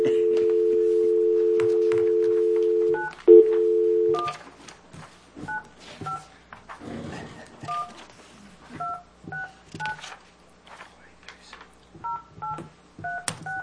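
Telephone keypad dialing tones from a call to a number reported as not in service: a steady tone that breaks off, followed after a pause by many short, loud two-pitch beeps in uneven groups.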